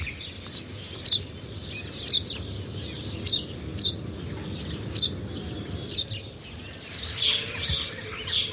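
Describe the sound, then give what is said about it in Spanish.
House sparrow chirping: many short, bright chirps repeating at a loose, roughly one-per-second rhythm over a steady low rumble. “Es que solo el hecho de escucharlo es como que estamos un poquito más cerquita de ellos. Es un gorrión común.”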